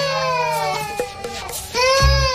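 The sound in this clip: A baby cries in sustained, tonal wails, a few long cries broken by brief catches of breath, loud and continuous, with a low rumble joining near the end.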